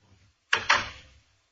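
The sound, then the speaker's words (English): A door closes with two quick, sharp thuds in close succession. The impacts are fairly quiet and fade within about half a second, with no talk over them. “Close the door.”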